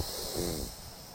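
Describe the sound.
A slow inhale through the left nostril during a breathing exercise, heard alone as a soft, airy nasal hiss that swells briefly in the middle, then settles and fades.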